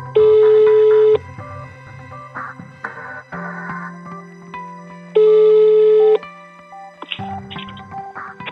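Outgoing telephone call ringing: two steady, evenly pitched ring tones, each about a second long and spaced roughly four seconds apart, with fainter line sounds in between.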